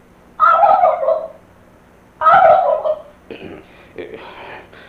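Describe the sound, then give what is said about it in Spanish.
A turkey gobbles in two loud, rapid rattling bursts about two seconds apart, with softer, fainter sounds trailing after. “¿y ese sonido tan raro? ¡Oh! En mala hora metimos ese jolote ahí”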